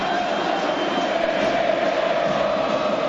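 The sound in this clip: River supporters roar from the stands at a football match against Central, a dense, unbroken crowd din with a faint sustained tone running through it at an even, moderate level.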